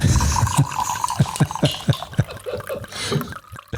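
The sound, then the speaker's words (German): Alcohol poured from a bottle into a glass: a quick run of many rhythmic gurgling glugs, then a thinner trickle as the pour tails off. “Nachgeschenkt. Komm, wir machen die Flasche leer.”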